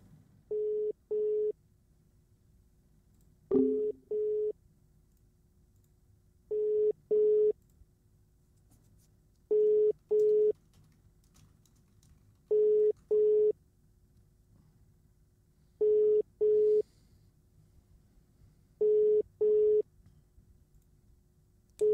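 Telephone ringback tone while calling someone: steady, mid-pitched electronic tones in paired bursts that repeat at even intervals of about three seconds throughout, with a faint click near the start.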